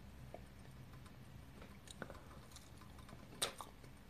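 Faint, soft chewing of a thick, cold tonkatsu pork cutlet, a low, moist mastication with a few small clicks and one slightly louder tick near the end.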